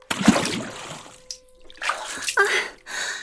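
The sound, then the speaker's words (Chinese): Splashing water as someone is dragged into it fully clothed, leaving the clothes soaked: a few broad, noisy bursts of churning water, loud at first, then rougher sloshes later on. “居然把我拖到水里，我的衣服都湿了”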